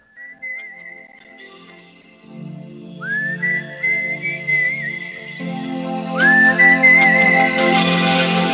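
A person whistles a melody from a German rock song, with sustained notes and several upward slides into higher held tones. A soft chordal accompaniment enters after about two seconds and grows fuller toward the end.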